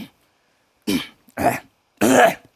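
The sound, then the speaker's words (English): Throat clearing: three short, rough, rasping bursts separated by brief silences, the last one the longest and strongest, heard alone without speech. “I'll clear that ginger shit out of my throat.”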